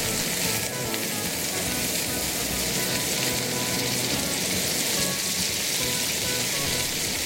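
Steady, dense sizzling of squid strips stir-frying in a wok with soy sauce, salt, rice wine, chili and a little sugar, a continuous even crackle that holds at the same level throughout, with no voices.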